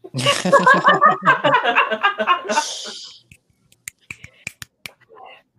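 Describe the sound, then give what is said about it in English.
Finger snapping: a series of sharp, crisp snaps in quick succession. They follow a stretch of voices and light laughter and stand out clearly against near silence. “Can't hear me, but I'm snapping.”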